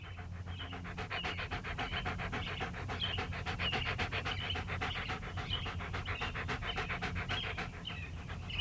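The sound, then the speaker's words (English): A dog pants in rapid, steady breaths, many quick in-and-out huffs in an even rhythm, fairly faint and continuous, with no other sounds over it. “That's my dog. He's okay.”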